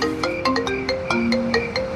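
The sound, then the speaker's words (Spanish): Mobile phone ringing with an electronic ringtone, a bright repeating melody of short, evenly spaced notes that plays on its own at a steady volume throughout. “Salió deprisa fuera de la disco y buscó su teléfono celular para llamar al Zuko.”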